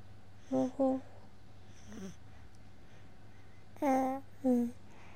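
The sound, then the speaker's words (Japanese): A two-month-old baby babbles in a few short, soft coos with pauses between them, faint over a steady low hum. “最近はね、うちのベビちゃん2ヶ月、あ、今日でね2ヶ月になって、なんかいろいろおしゃべり、お話をしてくれるんですよね。”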